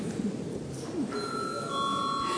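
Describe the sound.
Bell rung in a parliament chamber to call a vote, a steady sustained electric ringing that starts about a second in and continues to the end over low background noise.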